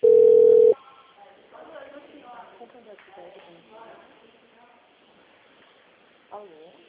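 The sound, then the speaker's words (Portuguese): A telephone tone on an outgoing call: one loud, steady, even tone lasting under a second, cut off abruptly. People then talk quietly for the rest. “Un llamado en Santander.”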